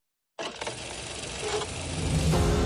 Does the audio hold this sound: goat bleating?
no